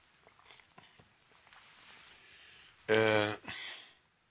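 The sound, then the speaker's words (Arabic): Coughing from a preacher mid-sermon: two loud, harsh bursts in close succession, the first rough and voiced, the second shorter, rising sharply out of a faint, quiet background. “اسمحوا لي عشان الكحة بس.”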